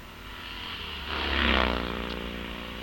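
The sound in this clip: A Vincent motorcycle sidecar outfit, carrying its passenger in a sidecar race, roars past: its engine note swells to a peak mid-clip, then eases back into a steady drone.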